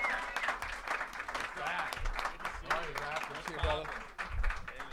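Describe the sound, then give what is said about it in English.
Audience applause welcoming a guest onto a show: dense, steady clapping runs the whole way through while voices talk over it. “Put your hands together, guys.”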